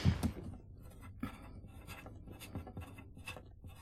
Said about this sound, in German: Du weißt schon, ich schreibe dir die Kontonummer nochmal auf.